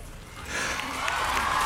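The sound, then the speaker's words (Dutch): Crowd cheering and applause after a speech on women's rights, a broad noisy roar that grows louder after the first half second and carries faint raised voices within the clapping. “Ja, terecht gejoel en applaus.”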